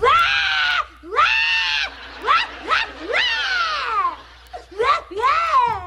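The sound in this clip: A girl cries in several loud, high wailing sobs, each sliding down in pitch, separated by short breaths and gaps.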